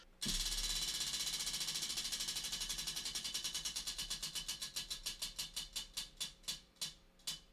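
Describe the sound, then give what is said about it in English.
Ratchet clicking of a spinning drink wheel: a loud, rapid stream of many clicks that gradually spread apart and slow down as the wheel loses speed, heard alone without talk. “I've got the drink wheel ready. Do you want to spin for our topic? I really don't, but I will.”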